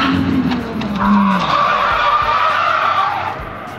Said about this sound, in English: And then, instead of making the left-hand corner and staying on the track, it spun right into the gravel track.